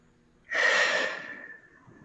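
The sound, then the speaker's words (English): A deep breath taken during a guided breathing exercise, a soft, airy rush that starts abruptly and then fades slowly, heard alone without talk. “we're going to take a few deep breaths in through your nose and out through your mouth”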